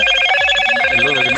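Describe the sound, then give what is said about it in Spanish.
A telephone ringing partway through a conversation: a loud, continuous electronic ring with steady bright harmonics that lasts the whole moment without pause. “no, lo están llamando, amigo, justo. Uy, ya justo lo mejor del audio lo llamaron.”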